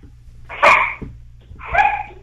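Dogs bark in the background of a phone call: two separate barks, each a short, sharp burst, with a quiet pause between them and no talk.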